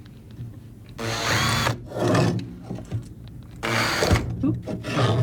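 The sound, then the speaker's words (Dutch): A small drill bores a hole into a piece of hard material so the powder can be collected for measurement. Loud, whining bursts alternate with quieter grinding and rubbing as the bit works in. “Ik boor een klein gaatje en ik vang eigenlijk het poeder op. Zodat ik dat vervolgens kan gaan meten.”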